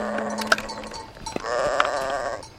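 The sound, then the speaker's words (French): Sheep bleating while being led to graze on a mountain pasture on a spring morning, a few wavering bleats rising over a steady, busy background. “Par un beau matin de printemps, Moïse mène paître ses moutons dans la montagne de l'Horeb.”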